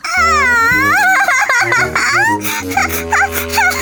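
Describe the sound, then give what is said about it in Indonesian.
A person cries loudly, with a high, wavering, sobbing voice that rises and falls in pitch, continuing for a few seconds with short catches of breath. “kok kamu nangis sih? Kenapa?”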